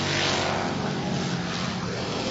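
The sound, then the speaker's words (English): Racing trucks roar around the track during a 25-lap truck race at Scotia Speed World: a loud, continuous engine drone that stays steady and unbroken for the whole stretch. “25 laps the distance in the truck race. We got the number three out front. He's got at least a 10-truck lead over the double zero”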